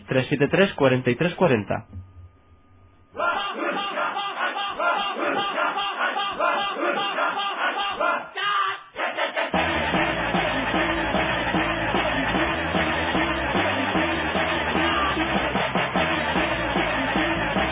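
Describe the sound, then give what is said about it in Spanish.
A crowd outside a radio booth grows lively, a loud sustained roar of shouting and cheering that briefly dips near the start and then swells again. “El público de fuera de la cabina se anima.”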